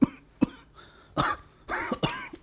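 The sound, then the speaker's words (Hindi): A man with a cold and fever coughs in several harsh, separate bursts, some short and sharp and others longer and rasping, each clear against near silence. “जरा ठंडी हवा लगी नहीं कि खांसी बुखार।”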